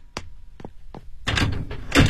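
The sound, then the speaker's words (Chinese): A door is opened: three sharp, separate clicks or knocks come first, followed by a longer, louder rustling swing of the door. “开门”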